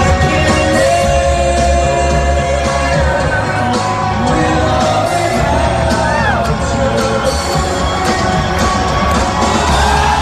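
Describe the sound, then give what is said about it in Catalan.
An audience shouts, whoops and cheers without pause at the opening concert of an Irish rock band's residency in a new ball-shaped venue with a curved, immersive screen. The crowd noise stays loud and dense over music. “I aquesta era la reacció del públic, quedant engolit completament, ho heu de veure les imatges, per l'espectacle visual immersiu d'aquesta pantalla encorbada, aquesta bola”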